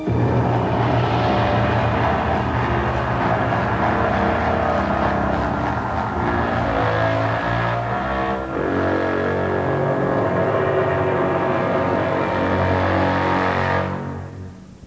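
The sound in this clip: The engine of a car travelling with nobody at the wheel drones loudly and steadily, its tone dipping briefly about halfway before it fades out at the end.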